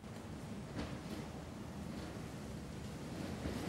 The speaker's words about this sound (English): Branches, whipped up by a strong wind, brush against the window he's sitting beside.